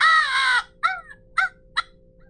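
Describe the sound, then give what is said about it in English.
Crow call blown by a turkey hunter, imitating a crow: one long, drawn-out raspy caw followed by three short, sharp caws in a loose rhythm, loud and alone. “Grab a crow call up.”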